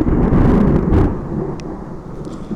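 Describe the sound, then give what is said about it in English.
Thunder rolls during a storm as a loud, low rumble that swells through the first second and then slowly fades away. “Maybe he's scared by the thunder. Ooh, big lightnings.”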